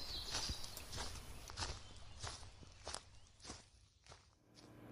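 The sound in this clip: Footsteps of someone walking in loose-fitting boots, a steady series of soft, faint steps with no voices.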